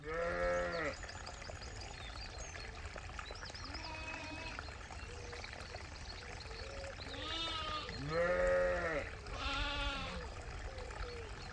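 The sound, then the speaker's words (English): Sheep and newborn lambs bleat in the countryside: loud, wavering calls at the start and again near the end, with fainter bleats between them over a steady outdoor background. “That's lovely. And it's the sound of the countryside right now. Basically, step outside and lambs are being born.”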